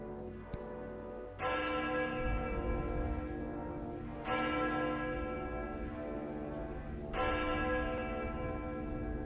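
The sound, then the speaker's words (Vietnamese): Church bell striking midnight: three resonant strokes roughly three seconds apart, each ringing out with a long, slowly fading hum, fairly soft overall. “Tiếng chuông ở nhà thờ đã điểm nửa đêm.”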